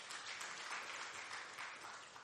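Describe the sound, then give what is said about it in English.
Members of a church gathering clap for themselves in thanks, a faint but dense, even wash of many hands that carries on steadily without a break. “So give yourselves a big hand clap.”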